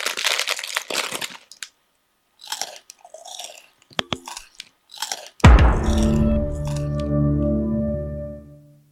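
A bag of crisps crinkles and crunches in irregular bursts for about five seconds, then a loud, resonant tonal sound with sustained harmonics rings out and slowly fades.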